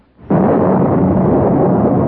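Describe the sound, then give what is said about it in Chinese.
Thunder accompanying lightning bursts in with a sudden loud crack, then rolls on as a sustained, heavy low rumble. “突然外面闪电夹着雷声”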